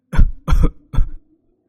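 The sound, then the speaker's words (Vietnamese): An old woman coughs violently in three harsh, loud bursts with short gaps between them, and the last cough trails off into quiet. “Một tràng ho dữ dội như trút hết không khí của người phụ nữ già nua vang lên.”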